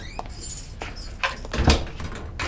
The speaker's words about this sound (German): Können Sie das Zimmer bitte abschließen?